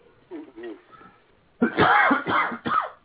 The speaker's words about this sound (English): Oh my goodness! Cough there.